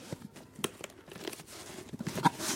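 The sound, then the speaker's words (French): Paper tears and crinkles as a moving box is unpacked: a few sharp rips stand out among soft, scattered rustles and crunches, all faint. “Des cartons de déménagement. Je déballe.”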